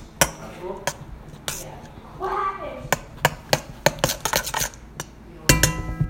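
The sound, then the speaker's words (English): A spoon clinks and scrapes as homemade salsa is stirred into diced tomatoes in a bowl. It makes many sharp, irregular taps and clicks, with a brief voice murmuring between them. “to add to the diced tomatoes. And then Now I'm just gonna mix this around. And boom, I got myself some salsa.”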